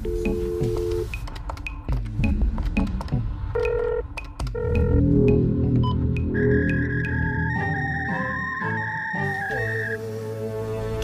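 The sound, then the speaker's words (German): An incoming WhatsApp message alert sounds as a string of electronic beeps and blips that settles into longer, sustained synthetic tones at shifting pitches, fairly loud, with no voices. “Da kam eine, Sie haben Post, Nachricht rein. Per WhatsApp.”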